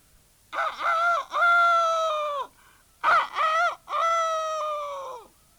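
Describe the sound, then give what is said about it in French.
A young farmyard rooster crows twice. Each crow is a loud, harsh, harmonic call made of short opening notes and then a long held final note that drops away at the end, with a brief pause between the two crows. “lorsqu'elle entend le jeune coq de la basse-cour lancer son cocorico”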